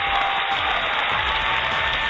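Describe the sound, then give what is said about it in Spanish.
An ovation of continuous applause, an even, unbroken roar of clapping at a moderate level from start to end, with no voices standing out. “Una ovación.”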